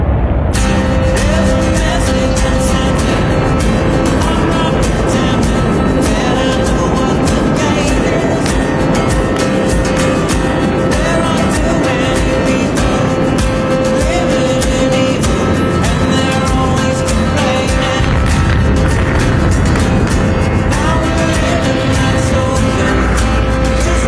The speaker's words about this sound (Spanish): A las nueve y media de la mañana, el Saturno 5 despega.